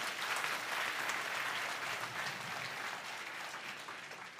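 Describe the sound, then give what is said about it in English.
An audience clapping during a worship service: dense, steady applause from many hands that lasts the whole time and eases slightly toward the end. “We should be clapping our hands kasi yung hindi natin pwedeng magawa, ginawa ni God para sa atin. Amen? I think He deserves a clap for that.”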